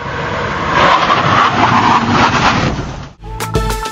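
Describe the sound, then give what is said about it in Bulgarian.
A car brakes hard to stop as close as possible to a cone in a safe-driving competition: a loud, steady roar of engine and tire noise for about three seconds that cuts off abruptly. “Това е спиране до конус, трябва да спре най-близо. Трябва да спре възможно най-близо до самия конус, за да си познава спирачната система.”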